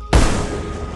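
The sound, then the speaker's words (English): A gunshot fired at a lake cracks out as one sudden loud bang, followed by a booming tail that fades slowly to the end. “Mr. Parks keeps up the volley of shots”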